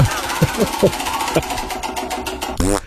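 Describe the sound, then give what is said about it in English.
Rapid clicking of a prize wheel, printed with grocery voucher prizes, as it is spun; a dense run of ticks plays under people talking, with the ticks growing more spaced toward the end. “So let's spin the wheel. I can do this.”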